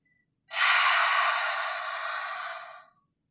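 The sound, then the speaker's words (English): An open-mouthed exhale, like fogging a mirror, made during a guided breathing exercise. It is a single long, breathy 'haaah' that starts strong and fades gradually over about two and a half seconds, with nothing else around it. “Tapos pag-exhale, make a sound like we're fogging a mirror. Parang ganito.”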